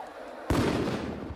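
A sudden loud burst rises into a rough, roaring whoosh as a Molotov is thrown to set a van on fire in a video game. It follows a quieter lead-in and stays strong as it slowly eases.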